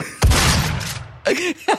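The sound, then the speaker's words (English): A shotgun sound effect from the video game Doom 2016: one loud, punchy blast with a long rumbling tail, followed by two shorter mechanical clacks. “It's the Doom 2016 shotgun sound effect. Pretty good. It's really good. It feels like a victory, doesn't it? It's a little bit like a thunderclap,”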